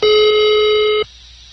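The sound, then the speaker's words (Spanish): Ringback tone of an outgoing phone call that goes unanswered: one steady, loud electronic tone lasting about a second, then an abrupt cutoff to faint hiss. “A lo mejor le entró otra llamada, porque le estoy marcando y no contesta.”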